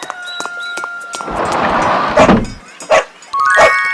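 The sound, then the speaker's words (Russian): Dog barking, a few short loud barks near the end that follow a broad noisy wash with steady electronic tones behind. “Собака.”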